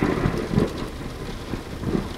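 A thunderclap with crackling lightning over steady rain: a dense, continuous hiss that swells in a few low rumbling surges, with no voices.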